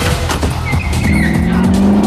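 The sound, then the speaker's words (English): Engine revving and tires squealing as a Mini car careers out of a hangar at speed in a chase. The loud, continuous roar climbs in pitch in the second half. “The Mini, with its great shag number plate, careers out of the hangar after Goldmember, with Roboto's men chasing on behind.”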